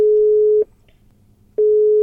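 Telephone ringback tone from a call placed while stuck in a traffic jam: a steady, low electronic tone sounds, breaks off into about a second of quiet with faint background hum, then returns.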